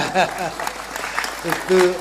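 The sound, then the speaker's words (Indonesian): Applause from an audience at a public talk about Trenggalek, brief and rough, mixed with people talking over it. “Tepuk tangan dong.”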